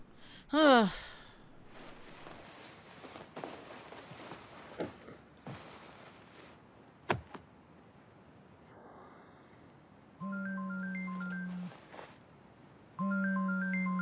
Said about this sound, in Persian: چرا الان داره بهم زنگ میزنه؟